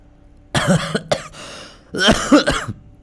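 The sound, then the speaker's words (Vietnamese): An unwell woman coughs hard in two rough bursts, each made of several harsh, throaty coughs close together, separated by a short pause. “đột nhiên ho lên sù sụ”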